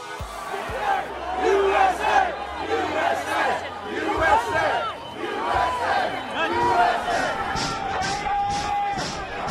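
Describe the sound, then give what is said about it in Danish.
A crowd of demonstrators storming the US Capitol in Washington roars in a continuous tumult of shouting voices. The noise swells and ebbs in uneven waves, with individual yells rising out of the din. “Det her, det kunne lyde som måske lidt tumult forbundet med en sportsbegivenhed, men billederne, som hører til lyden, viser tusindvis af demonstranter, som i går bestormede og indtog kongresbygningen Capitol Hill i Washington D.C.”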